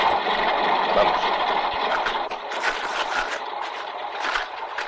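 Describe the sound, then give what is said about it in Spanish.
A car engine runs with a rough, steady hum and hiss that swells and eases over about five seconds, heard alone without voices. “Arranca y se marchan.”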